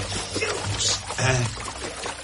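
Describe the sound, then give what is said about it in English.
A shower runs hot and steamy, giving a steady, full rushing hiss of spraying water that carries on without a break for the whole moment. “Oh. The shower. Quickly.”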